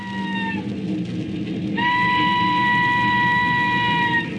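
A train sounds a harmonic whistle over a steady rumbling roar. A short tone is followed by a longer sustained blast at a steady pitch.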